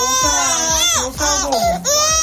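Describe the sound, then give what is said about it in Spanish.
Babies cry as a nurse gives them a vaccine in a pediatric consultation room, with loud, continuous wailing sobs whose pitch rises and falls in repeated bursts. “Bebés llorando mientras la enfermera les administra una vacuna.”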